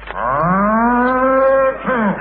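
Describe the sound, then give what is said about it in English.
A bull moos in one long, loud, resonant bellow whose pitch climbs slowly, then breaks off and follows with a shorter second call. “No, sir, no. We've only got a bull. It's over there. Oh, a bull.”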